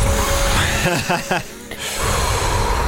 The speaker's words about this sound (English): Breathe in, breathe out, continue.